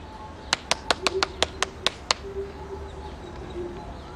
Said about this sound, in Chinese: 你干嘛鼓掌啊？太夸张了